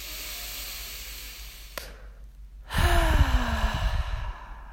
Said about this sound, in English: just take a deep breath to settle in